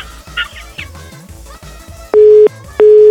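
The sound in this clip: A phone busy signal on an unanswered call sounds as two loud, steady mid-pitched beeps with a short gap between them, following a stretch of other, busier sounds.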